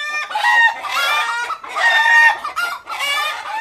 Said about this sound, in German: In den steilen Gässchen gackern freilaufende Hühner.